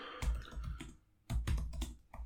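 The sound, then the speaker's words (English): Loud, rapid typing on a computer keyboard, clattering in two dense bursts of keystrokes separated by a short pause. “God, you type so fucking loud.”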